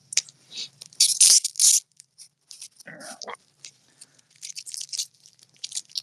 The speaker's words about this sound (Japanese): 無理やり開けたわ。俺は避けるチーズは咲かずに食べる。